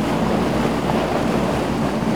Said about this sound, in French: Le moteur ronronne et l'étrave de la petite Vedette forme ce bras de mer.